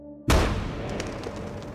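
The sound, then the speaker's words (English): A single gunshot from a bolt-action rifle after earlier misfires: one sudden loud bang, then a dense, noisy rumbling tail that stays strong to the end. “Pointing the firearm away from himself, he squeezes the trigger once more.”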